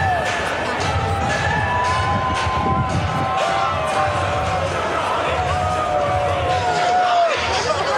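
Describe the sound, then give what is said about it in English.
Crowd cheering in the stands at a football game, a dense, constant roar of many voices with shouts and whoops, while nearby people call out and talk over the steady noise. “we had some cheering together moments, as you can see.”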